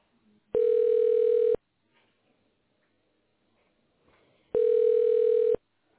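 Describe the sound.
Telephone line tone during a call transfer: two steady beeps, each about one second long, about three seconds apart, with near silence and faint rustle between them.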